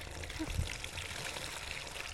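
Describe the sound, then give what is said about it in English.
Water splashes and spills over the rim of a bowl as it is filled to overflowing, a steady, continuous trickling and pouring wash with small bubbling surges and no pauses. “here's what it looks like. That's splashing.”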